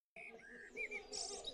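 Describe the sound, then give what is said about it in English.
A blackbird sings through a birdsong installation on the ground-floor main corridor of Alder Hey Children's Hospital. Soft fluting, warbling phrases lead into a few higher chirps, all faint and without talk. “And what you're hearing is the sound of a blackbird singing”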